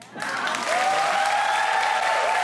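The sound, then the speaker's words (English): Applause from a crowd: continuous, dense clapping that starts abruptly and swells slightly, holding a steady, loud wash of hand claps to the end. “Who's clapping? Also, whoever. Who's clapping?”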